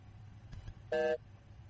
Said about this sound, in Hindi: अरे call cut गई भाई की, पता नहीं क्या कह रहे थे भाई.